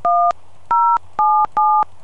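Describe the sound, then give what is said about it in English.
Telephone keypad tones dialing into a conference call line: five steady dual-pitched beeps, each lasting about a quarter second, in an even rhythm with brief gaps between them and no voices. “it looks like we're having some technical issues with the conference line. Let me get dialed back into there.”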